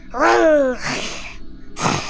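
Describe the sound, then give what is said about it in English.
A voice imitates a horse breathing through its nose: a strained, voiced snort, then a rough airy exhale and, after a brief pause, another short breathy puff. “He only heard the sound of a horse nose breathing. It went,”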